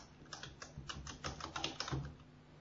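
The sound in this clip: Code being typed on a computer keyboard, a quick, irregular run of many soft key clicks, faint and steady throughout with no talking.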